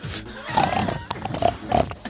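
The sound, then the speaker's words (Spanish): Pig grunts, a few short throaty bursts with pauses between them, moderately loud against a faint noisy background. “Comenzamos con ese cerdo.”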